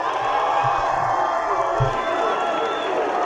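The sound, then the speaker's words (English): A crowd cheering and whooping for a middle school dance team as the girls perform, a dense, steady roar of voices that stays loud from start to finish. “So the girls are dancing and everyone's cheering for them.”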